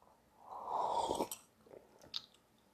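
Someone takes a long, airy slurping sip of tea, followed by a few faint swallowing and lip-smacking sounds, with no talking.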